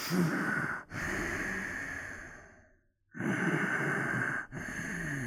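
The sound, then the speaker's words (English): A person breathes loudly and heavily to imitate a silent horror-movie killer. Long, rasping breaths run in and out, broken by a couple of brief catches and one longer silent gap midway. “You should have just breathed really loudly into your mouth. Oh, right. Okay, yeah, here's what it would sound like.”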